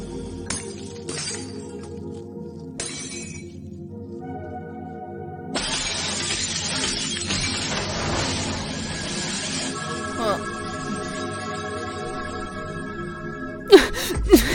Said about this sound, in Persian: و این دروغ انقدر بزرگ بود که لامپا رو زد ترکون.